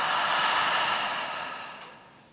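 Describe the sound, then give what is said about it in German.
A slow, deep breath out through the mouth, part of a calm breathing exercise: a soft, airy hiss that starts full and gradually fades away. “Und wir atmen durch die Nase ein und durch den Mund aus. Und ein, aus.”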